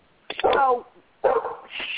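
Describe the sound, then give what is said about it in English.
A female dog barks and yelps in two loud bursts, one short and one longer, with whining harmonic tones and a brief quiet gap between them. “That's my dog. I'm sorry. She barks at everybody.”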